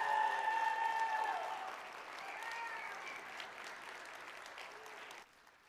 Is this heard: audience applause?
yes

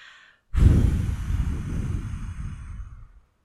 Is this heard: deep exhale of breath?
yes

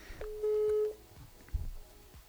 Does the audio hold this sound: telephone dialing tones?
yes

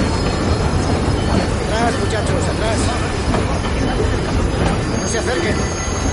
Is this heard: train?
yes

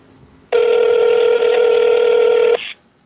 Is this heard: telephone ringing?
yes

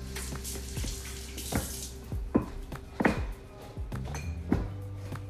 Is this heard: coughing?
no

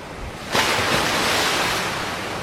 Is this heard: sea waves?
yes

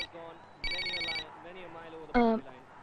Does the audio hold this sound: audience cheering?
no

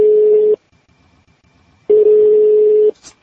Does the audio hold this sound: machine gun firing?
no

